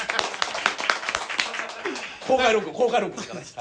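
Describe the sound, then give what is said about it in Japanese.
Audience applause at a live public recording, a short burst of scattered claps in the first two seconds, then a voice speaking over the fading clapping. “いっぱいお客さん来ていただいてます、拍手”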